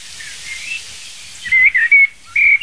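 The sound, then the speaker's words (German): Common blackbird singing outside a forest: a few clear, fluted whistled phrases ring out loud after a quiet, near-empty start, each short phrase separated by brief pauses. “So, diese Amsel singt außerhalb des Waldes.”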